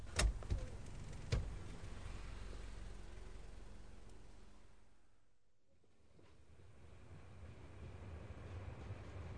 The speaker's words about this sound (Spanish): Ahí está. El tren que me va a llevar lejos de mis recuerdos.